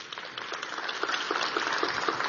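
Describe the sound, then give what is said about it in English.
Audience applause for sponsors at a panel event on energy and technology, a fine, crackling patter of many hands that starts fairly soft and swells steadily louder. “Give them all a round of applause.”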